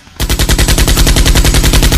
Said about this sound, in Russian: Уворачиваясь, он дал последнюю длинную очередь.